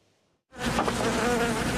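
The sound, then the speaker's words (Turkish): A swarm of bees nesting in the roof cavity of an apartment building in Istanbul gives a loud, dense, continuous buzzing. It starts abruptly after a brief near-silence and holds steady to the end, with no voices. “Arılar komple yuva yapmış, bakın görüyorsunuz. Evin içi komple arı bastı”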